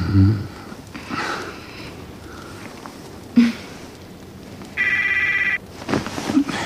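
A mobile phone rings with one short, loud electronic trill, after quiet sniffing and rustling.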